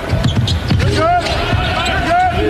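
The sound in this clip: Basketball dribbled during a college game, a few firm thumping bounces heard under a commentator's ongoing talk.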